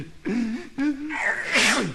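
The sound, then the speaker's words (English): A voice imitates a sneeze within a blues song about a flu bug: drawn-out voiced build-up sounds rise and waver before a loud, breathy, hissing burst near the end. “Beetles don't claim him and neither do the fleas, because he makes everybody sneeze.”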